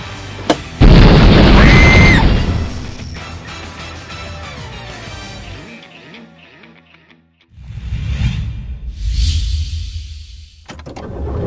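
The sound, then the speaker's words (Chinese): A bomb hidden on a suitcase explodes with one sudden, loud blast that rolls into a heavy rumble and ringing decay. Quieter rumbles and clatter follow before the sound fades out. “原来炸弹在手提箱上。”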